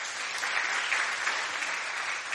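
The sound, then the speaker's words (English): Church audience applauding the worship team: continuous, thick patter of many hands clapping together, fairly steady in level with small swells throughout. “I think we should applaud the worship team.”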